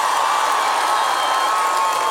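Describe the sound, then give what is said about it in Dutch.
A concert crowd cheers and applauds for a piano player, a dense, loud, continuous roar of voices with clapping blended in. “Mag ik een heel groot applaus voor Julian?”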